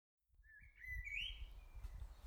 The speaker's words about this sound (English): and there's a bird singing its heart out. I think it's a blackbird.